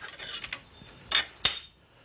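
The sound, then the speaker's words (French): Metal washers, including a fan lock washer, handled while a stomp switch is installed on a lid: light metallic clinks and taps, then two sharper, bright clinks close together, with no talk. “Donc il y a un certain nombre de rondelles. Alors normalement la rondelle éventail, il faut la mettre dessous, normalement.”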